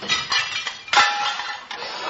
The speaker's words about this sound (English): What are you doing? Well, if I don't smash them, I have to wash them.